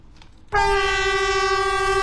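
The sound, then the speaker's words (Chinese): A Harmony 'Great Wall' EMU train sounds its horn as it slowly crosses a zigzag switchback track in a mountain valley on an old Beijing–Zhangjiakou line station. A single loud, steady, high-pitched horn blast starts abruptly after a faint rumble and holds. “在京张铁路青龙桥老站，和谐长城号动车组从经典的人字形轨道上缓缓驶过，山谷间回荡的鸣笛声像是讲述一个久远的故事。”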